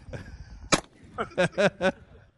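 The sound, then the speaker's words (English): A shotgun fires in a video game with one sharp, loud, short crack, set among a few other brief bursts of sound. “Go and shoot again. Oh, geez, like you cocked it.”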